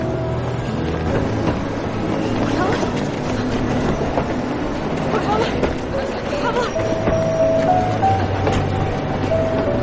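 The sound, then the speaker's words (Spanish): A tram pulling away from a street stop and gathering speed: a steady, dense rail rumble with wheel clatter that continues throughout at an even, fairly loud level. “La mujer cruza la calle corriendo para alcanzar el tranvía, pero este se ha puesto en marcha y corre junto a él.”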